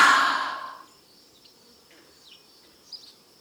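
A long, deep breath out during a yoga breathing exercise, a soft breathy hiss that fades over about a second into near silence.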